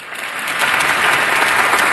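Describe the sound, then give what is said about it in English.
Audience applause, a dense steady wash of many hands clapping at full volume for two seconds with no voices over it. “You don't need to clap.”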